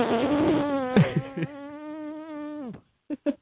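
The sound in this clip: A voice imitates the bare buzz of vocal folds without head resonance, a thin, nasal, insect-like drone held steadily for over two seconds, then cut off and followed by a few brief buzzy bursts.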